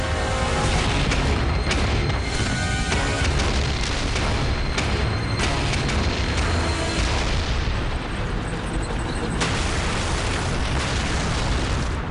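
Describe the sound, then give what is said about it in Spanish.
Huge explosions in battle merge into a continuous, loud, dense roar with crackling bursts throughout, and no single blast stands apart from the rest. “Enormes explosiones. Gritos aterradores.”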